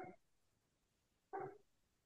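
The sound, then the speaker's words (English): A dog barking next door: two short, faint barks, one at the very start and one just over a second later, with quiet between them. “I hear your dog barking. Your dog's like, hey, answer. Oh, that's a dog next door to me”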